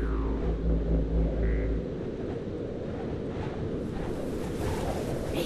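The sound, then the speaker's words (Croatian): Strong hurricane-force bora wind over Split roars as a continuous, dense rush of noise, with a heavy low rumble that eases after the first couple of seconds. “Nad Splitom je zapuhala jaka orkanska bura.”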